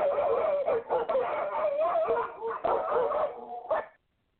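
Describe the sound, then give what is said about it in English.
Dogs barking and howling on a television, a dense run of overlapping barks and yowls lasting about four seconds before cutting off. “Well, I thought I heard dogs barking, but I guess I was on the TV.”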